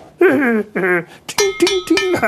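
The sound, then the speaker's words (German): A small pointed pick chips a hole in a tooth: a few sharp metallic clinks with a ringing tone come in quick succession after a short stretch of voiced, vocal-like sounds. “Mit der Hacke hacke ich erst ein ganz kleines Loch in einen Zahn oder gleich in mehrere Zähne.”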